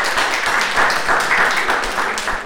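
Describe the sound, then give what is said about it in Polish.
Applause from participants and volunteers of a seniors' safety project at a meeting: a dense, steady wash of many hands clapping, loud and continuous for the whole stretch, with no clear break. “wielkie brawa dla Was wszystkich.”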